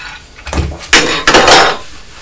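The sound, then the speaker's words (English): A spoon falls out and clatters, giving a few short, fairly loud knocks and rattles spaced over about a second, with quiet stretches between them. “Oh dear, spoon! Oh dear, spoon. The spoon did fall out.”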